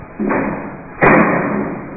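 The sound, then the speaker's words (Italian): Chairs being handed out and set down: two dull thumps, the second louder than the first, each followed by a sustained scraping rumble. “Le sedie si distribuiscono”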